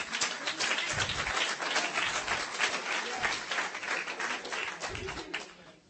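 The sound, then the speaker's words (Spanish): Audience applause at a bilingual preaching event, a steady patter of many hands clapping that holds fairly even, then thins and fades in the last moment. “I know that the applauses here are not many.”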